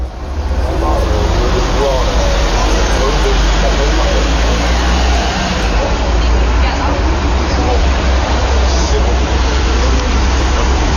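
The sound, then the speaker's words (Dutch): Street ambience on a French café terrace, with a metro, a car and a truck passing: a loud, continuous wash of traffic noise over a steady low rumble. “Dit is het geluid van een Frans terras.”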